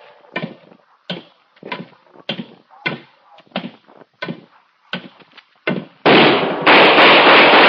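Gunshot in a radio drama: a regular series of sharp bangs leads into a louder, sustained burst of harsh noise.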